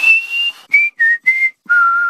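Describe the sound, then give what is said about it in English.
Someone whistles a short tune of five clear notes: a long opening tone, three brief notes a little lower, then a final held note at the lowest pitch. The whistling is loud, alone, with short gaps between notes. “What's that? It sounded like a whistle to me.”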